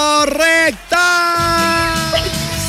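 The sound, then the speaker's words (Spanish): A person screams with joy after winning double concert tickets: a few short excited yelps, then a long, loud, high, sustained scream with a wavering pitch that carries on to the end. “Hasta casi me voy en ese grito.”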